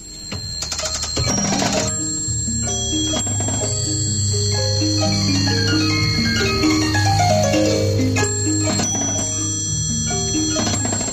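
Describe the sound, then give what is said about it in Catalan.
An antique Swiss music box from 1820 plays a bright, tinkling melody of plucked metallic notes, with steady overlapping tones that ring on without a break and no voices. “És una caixa de música suïssa de 1820, i sona així.”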